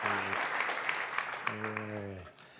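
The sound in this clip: Applause from an audience welcoming the speakers who lead a service, a dense clapping texture with voices rising above it before it fades out near the end.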